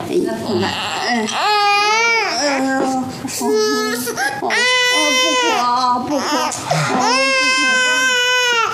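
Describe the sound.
A baby cries while being held in someone's arms, in loud, wailing bursts whose pitch rises and falls, several cries in a row with brief catches of breath between them.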